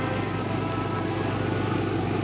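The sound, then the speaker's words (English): A car drives along a Cape Cod road toward a newly bought cottage, giving a steady, even rumble of engine and road noise. The sound stays unbroken and constant throughout, with no voices. “Daisy and Pete are now in Cape Cod, driving toward the cottage they've just purchased.”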